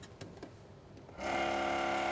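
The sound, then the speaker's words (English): A small capsule mixer blending dental cement in a capsule: near silence, then a buzzing, rattling mechanical drone switches on abruptly and holds steady and loud to the end. “You pull off the security tab here, activate it by hitting a plunger at the bottom, then place it in a little cement mixer.”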